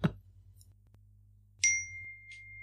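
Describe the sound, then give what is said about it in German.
A smartphone message notification for a Tinder match sounds as a single bright ding with a clear ringing tail. A soft thump comes first, then near silence. “ich habe gerade eine Nachricht gekriegt. Ach, ein Tinder-Match.”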